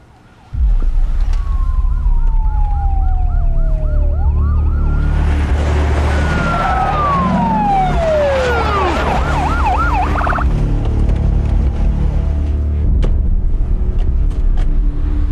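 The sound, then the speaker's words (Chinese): A police car siren arrives, bursting in loud after a brief quiet start and wailing in long rising and falling sweeps with rapid warbling yelps, over a low vehicle engine rumble. “果然，警车开到”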